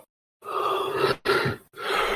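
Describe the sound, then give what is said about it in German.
A person yawns with drawn-out, breathy, groan-like vocal sounds in three stretches separated by brief gaps, moderately quiet and without other talk. “Alle paar Sekunden gähnt dieser Mensch.”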